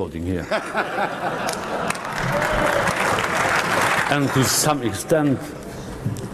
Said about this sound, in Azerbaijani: Sizi burada sonuncu dəfə də alqışlayırlar